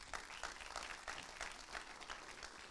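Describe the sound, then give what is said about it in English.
A church audience applauds to welcome a guest speaker to the stage. Continuous, evenly dense clapping stays faint and steady from start to end. “I want you guys to give me a hand in welcoming him to the stage”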